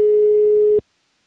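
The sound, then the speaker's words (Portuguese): A single steady telephone tone while calling a pastor, a pure mid-pitched beep lasting just under a second before it cuts off cleanly into silence. “Vou ligar para um pastor amigo nosso que é da Argentina e trabalha aqui no Brasil, hein?”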